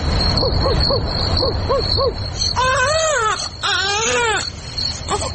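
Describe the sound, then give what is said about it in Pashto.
Baby crying in a radio drama: a run of short, arched whimpering wails repeats steadily, then gives way to longer, higher, strained cries, loud against a constant background hiss. “ماشوم د زړا علت څه دی او اصل کیسه څه ده دا به په دې ډرامه کې واورو”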